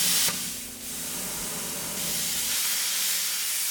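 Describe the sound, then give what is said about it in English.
A torch scoring the head of the bronze Lee Monument statue at a foundry gives a steady, broad roaring hiss that continues throughout at moderate loudness. “They use a torch to score the head of the statue in the”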